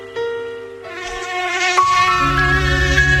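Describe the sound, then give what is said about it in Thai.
Whining buzz of an Aedes mosquito, the dengue carrier: a thin, steady, harmonic drone that thickens and grows gradually louder over a few seconds, heard alone without voices. “แต่เสียงนี้คือสัญญาณอันตรายพาหะโรคร้ายไข้เลือดออกมาร่วมกันปกป้องคนที่คุณรักด้วยการกำจัดแหล่งเพาะพันธุ์ลูกน้ำยุงลายหยุดวงจรโรคร้ายไข้เลือดออกด้วยความห่วงใยจากสถานีวิทยุอสมท”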